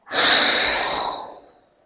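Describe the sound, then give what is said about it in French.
Forceful exhale during a breathing exercise, blown hard while bending forward after a slow inhale: one loud, breathy rush that starts abruptly, holds, then fades over about a second. “à la fin de l'inspiration, tu vas souffler fort en te penchant en avant.”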